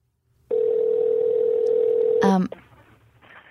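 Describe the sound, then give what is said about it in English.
A telephone dial tone sounds while a call is being placed. A steady mid-pitched tone holds for about two seconds, then a sharp click and a brief burst cut it off, leaving faint line noise. “Let's call this mystery guest right now.”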